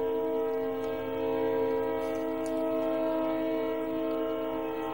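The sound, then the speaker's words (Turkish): A passing train sounds a long, loud, steady horn blast that lasts the whole stretch, a sustained chord of tones with faint rail noise beneath it. “Tren geçiyor.”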